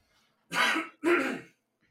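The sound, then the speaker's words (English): A man clears his throat and coughs up phlegm in two harsh, rasping bursts, each about half a second long, with a brief gap between them and quiet before and after. “Pardon me, Jesus Christ! I don't know where all this phlegm is coming from. One sec.”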